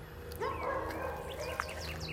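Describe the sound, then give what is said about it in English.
Faint dog barking from neighborhood dogs, including one across the street, as heard from a driveway; a few soft, scattered yips and barks sit low under a steady background hum, with no one talking. “So you can probably hear some dogs in the background.”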